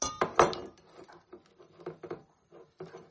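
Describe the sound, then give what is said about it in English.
A teaspoon scraping the bottom of a bowl holding very little salt: light, irregular scrapes and small ticks and taps, faint and scattered over a few seconds, with no talking. “Hard to get in. So there's not enough salt in here for me to scoop up.”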